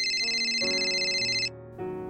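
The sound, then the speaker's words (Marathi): A mobile phone ringtone plays alone as steady electronic notes, a bright high tone that cuts off and gives way to a lower pattern before a new note sounds near the end. “तितक्यात mobile वाजला”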